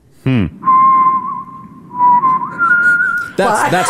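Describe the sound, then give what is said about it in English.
A man whistles a clear, steady tune of long, held, fairly high notes with small slides between them. Brief voiced sounds come just before the whistling and right after it. “That's just a fella with a good whistler.”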